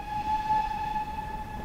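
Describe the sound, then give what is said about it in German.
A steam locomotive of the Swanage Railway gives off a faint, sustained high tone over a low rumbling background, continuous and even throughout. “In direkter Nachbarschaft zur Cove Castle Ruine liegt ein historischer Bahnhof. Hier machen nur die Dampflokomotiven der Swanage Railway Halt.”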